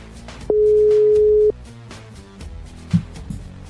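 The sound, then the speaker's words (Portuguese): WhatsApp voice call ringing tone, heard as a single steady electronic beep lasting about one second at a mid pitch, standing out clearly over a faint, busy background. “Vou ligar pelo WhatsApp, porque aqui tá só requesting. WhatsApp. Liguei pelo WhatsApp.”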